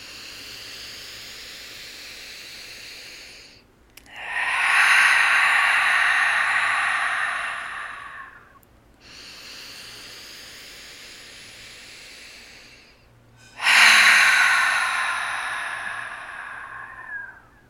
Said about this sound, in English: Take a deep breath in through your nose. Sigh it out to ground yourself. Two more.